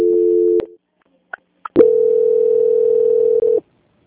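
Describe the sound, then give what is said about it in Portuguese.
Telephone line tones during a call transfer: a short steady tone, a pause with two brief blips, then a long unbroken tone that holds for almost two seconds before cutting off. “Peço que aguarde em linha que vou transferir o contato para o controle de qualidade que dará continuidade à sua contratação. Só um momento, por favor. Ok. Transferência.”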